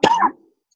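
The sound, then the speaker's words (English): A single short, sharp cough from a participant in an online meeting. It is loud and abrupt, then quickly dies away into silence. “I think the cough might have covered it up.”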